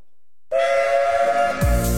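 Steam whistle of an A1 class locomotive: one steady, piercing blast that starts abruptly and holds for about a second, then gives way to a louder, lower-pitched rush of sound.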